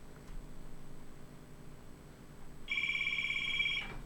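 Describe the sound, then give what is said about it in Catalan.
A telephone rings for an incoming call: after a stretch of low background hiss, one electronic ring burst with a bright, buzzing trill sounds for about a second, then stops. “Banyoles al Foment, i tenim una trucada”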